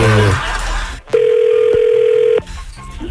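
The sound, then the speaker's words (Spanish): A telephone is dialed again, giving a steady mid-pitched tone for just over a second, framed by sharp clicks at its start and end, after a brief stretch of voice. “Vamos a marcarle otra vez.”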